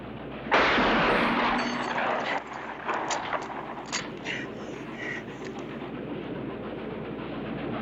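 A single loud rifle shot rings out in a dubbed film scene, a sharp blast followed by a long rumbling decay with a few faint clicks after it.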